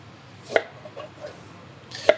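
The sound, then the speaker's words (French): Two crisp knife strokes trim both ends off a red meat radish, each a short, sharp thunk, well apart, with near quiet between them. “Je coupe les deux entames pour commencer. Donc j'ai pris ce qu'on appelle un red meat.”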